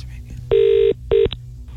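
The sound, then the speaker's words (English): Ringback tone of an outgoing telephone call: two steady, mid-pitched buzzing tones, a longer one followed by a shorter one, with a short gap between them and quieter background sound underneath. “It's going to go to voicemail. Oh, no, it's not. It's ringing, it's ringing, it's”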